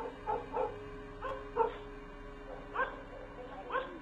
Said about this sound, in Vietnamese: Nó sủa càng lúc càng tợn, rồi lùi dần lại chỗ ông Tước